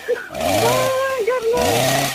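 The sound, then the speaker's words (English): A voice imitates a chainsaw starting up during a prank, making a buzzing, revving vocal drone that climbs, dips and climbs again in pitch, fairly loud and continuous. “I've got a chainsaw. I'm just going to cut my nose off. Why should you cut your nose? Primrose? Yes? I'm starting up my chainsaw.”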